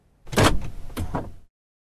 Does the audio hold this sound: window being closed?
yes